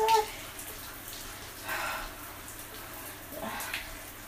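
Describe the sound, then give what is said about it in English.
Running water for rinsing hair, likely from a bath or shower tap, a steady, fairly soft hiss that carries through the whole stretch with a few slight surges. “Oh, hurry up, because I need to dry my, I need to rinse my hair off.”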